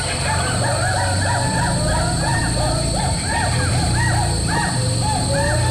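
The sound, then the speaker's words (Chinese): Skywalker hoolock gibbons call in a primeval rainforest in Yingjiang, Yunnan, giving many repeated, rising-and-falling whooping hoots in a steady rhythm over a constant bed of insect buzz and forest hum. “长臂猿行动速度非常快，虽然还没有看见他们，但是我们已经听到他们的声音，大家仔细听。”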